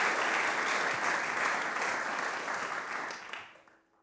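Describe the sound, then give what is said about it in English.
Audience applause welcomes a speaker back to a meditation program. The clapping is dense and steady, holds for about three seconds, then fades away quickly. “Please give her a warm welcome back, Tracy Cochran.”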